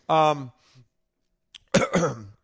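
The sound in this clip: Coughing and throat clearing from something caught in the throat: a short voiced, harsh burst, a pause, then a quick catch and a longer, rough, strained burst. No words are spoken.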